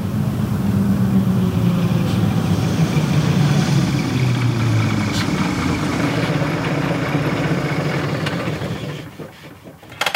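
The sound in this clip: A truck engine idles and rumbles steadily while a driver parks the hard-to-handle truck. The low, loud drone holds for about nine seconds, then drops away sharply near the end.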